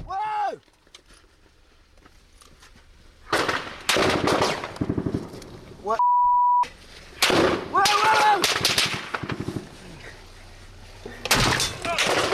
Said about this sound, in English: All right, check this out. They're taking heavy fire here.